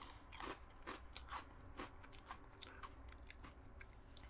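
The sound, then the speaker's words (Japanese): Someone bites into and chews a carbonated rice cracker (tansan senbei), making many faint, crisp crunches in an irregular rhythm with no talking. “はい、炭酸せんべいね。 こうなりますね。じゃあ、僕、お先に一口いただきますよ。”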